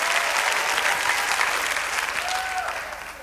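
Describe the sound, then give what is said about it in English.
A church audience applauding and cheering, a dense, loud wash of clapping with a few voices calling out over it, easing slightly toward the end. “If that's you, make a little noise in the room right now.”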